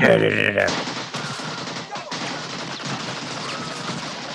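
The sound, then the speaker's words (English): AK-47 assault rifle fire: a dense, loud rattle of rapid shots that runs without a break after a brief voice at the very start. “This is the AK-47 assault rifle, the preferred weapon of your enemy, and it makes a distinctive sound when fired at you, so remember it.”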